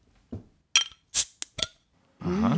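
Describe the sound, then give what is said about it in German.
Glass clinks and metallic taps as a bottle of Witchwood King Goblin beer is opened: several sharp, bright knocks at irregular intervals, followed by a steadier, louder rushing hiss that fills the last moments. “Dann hast du jetzt Angst und wir machen dieses Bier auf. Hier kommt das Geröff vom Witchwood King Goblin.”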